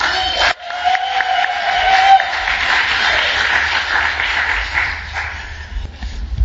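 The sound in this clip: An audience applauds to welcome a speaker at an evening talk, with some cheering mixed in. The clapping is loud and sustained, briefly dips near the start, then holds a steady roar for several seconds with no one speaking.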